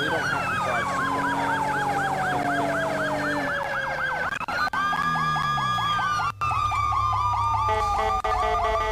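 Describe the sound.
A police car siren from a video game wails without pause, cycling in rapid yelps over a steady engine drone, its pattern shifting to a different warble partway through.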